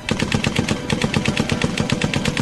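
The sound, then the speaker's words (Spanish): Machine gun fire in a radio drama, a fast, even hammering of many loud shots in a continuous burst with no voices over it. “Juan, Diana y Favalli llegan a la ametralladora enceguecidos de furia. Disparan aturdidos, enloquecidos, inconscientes del inminente final.”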